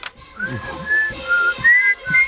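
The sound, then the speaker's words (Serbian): A person whistles a series of clear, high, sustained notes that shift slightly in pitch from one note to the next, with faint low thumps underneath. “Ajde, da zviždi. A zviždi”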